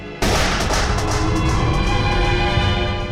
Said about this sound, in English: Shoot him again. This time do not miss.